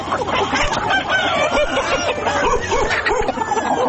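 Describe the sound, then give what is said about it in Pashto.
Chickens clucking and crowing, more than ten hens and roosters kept in one corner of a mud house in Ghazni. A dense, continuous chorus of overlapping bird calls holds at a steady, fairly loud level throughout. “درخانۍ د خپل خټین کور په یوه څنډه کې تر 10 تنې زیات چرګې چرګان ساتلي.”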